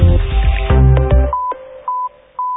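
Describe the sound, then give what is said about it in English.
Phone keypad tones dialing a short code: a few short, clean electronic beeps spaced evenly after a louder, busier opening, each tone clipped and alone. “Dial *247# today and experience the power of Stanbic Cash Advance with Stanbic Bank.”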